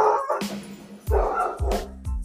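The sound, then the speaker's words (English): A dog gives a few short, sharp barks in quick succession, loud and clipped, with whiny, yipping tones between them. “that my dog making that noise”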